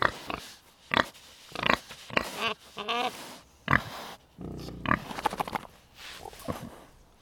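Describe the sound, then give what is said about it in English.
A pig grunts and oinks on a farm at a private butchering facility, giving many irregular, short grunts and squeals of varying loudness in a steady run, with no talk. “We are out at Egg and I Farm, out on Egg and I Road, at a private abattoir, and an abattoir is a butchering facility. And we are here to butcher the pig that my husband and I bought to eat”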